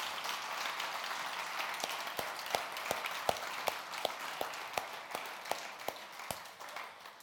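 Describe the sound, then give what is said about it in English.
Faint applause at a church service on Father's Day. A soft wash of clapping carries a steady run of about a dozen sharp, evenly spaced claps through the middle and later part. “We give him a round of applause”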